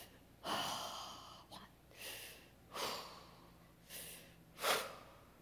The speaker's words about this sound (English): Breathe for 5 seconds.